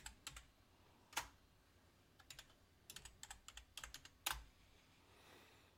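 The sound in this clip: Typing on a computer keyboard: faint, irregular clusters of quick key clicks separated by short pauses, with no voices.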